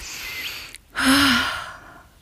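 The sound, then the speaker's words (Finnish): A person breathing deeply: a soft breath, a short pause, then a long, louder breath that gradually fades, with no talking. “Mä hengitän.”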